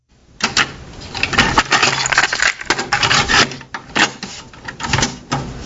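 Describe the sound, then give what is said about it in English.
A cassette tape being flipped over to side B gives off a run of plastic clicks, clacks and rattles, many small sharp knocks in an uneven rhythm, with no talk. “And side A is filled. It's time to flip the tape around.”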